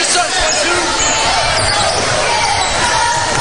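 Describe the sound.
A basketball being dribbled on a court during a game, the bounces blended into a steady, loud wash of crowd noise.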